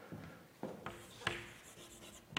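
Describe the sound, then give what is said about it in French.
Scratchy strokes of writing on a board during a French mathematics lecture, several short, faint scraping bursts separated by quiet gaps, with no talk over them. “Alors, je vais vous dire, supposons qu'on a, on a ça. Moi, je vais l'écrire là.”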